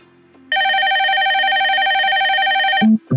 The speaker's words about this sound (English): I wish I could answer the damn phone. Alexa, answer the phone.